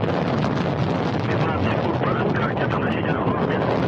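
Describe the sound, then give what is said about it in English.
Rocket liftoff as the boosters ignite and build thrust, sending a crew of three to the International Space Station: a dense, continuous roar that stays loud and even throughout. “We're going to see the boosters at the bottom light up, and as their thrust build, and liftoff. Cassidy, Ivanishin, and Wagner on their way to the International Space Station.”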